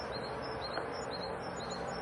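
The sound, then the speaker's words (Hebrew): A bird calls outside with faint, high, thin chirps that repeat many times in a quick, steady pattern over constant low background noise. “זה לא ספר של ציפור, זה ציפור בחוץ.”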